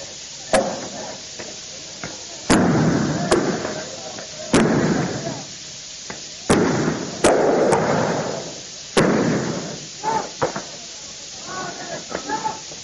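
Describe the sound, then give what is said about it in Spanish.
Police firing tear gas canisters, with gunshots, during a student street protest: many sharp, loud bangs at irregular intervals, with hissing and crowd noise between them and a voice talking throughout. “la policía contesta con disparos de bombas de gases lacrimógenos”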